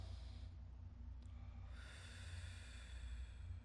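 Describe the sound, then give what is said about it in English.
A deep breath drawn in through the nose and let out through the mouth: a long, steady airy rush that turns brighter and hissier partway through, with no talk over it. “you begin by first taking a deep breath, inhaling through your nose and out your mouth. So you go.”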